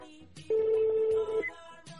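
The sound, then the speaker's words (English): A telephone rings during a call: a single steady, mid-pitched ringback tone lasting about a second, with faint background noise before and after. “It's ringing.”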